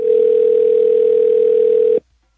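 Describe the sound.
Ringback tone of an outgoing telephone call: one steady, mid-pitched tone holds for about two seconds, then cuts off abruptly into silence.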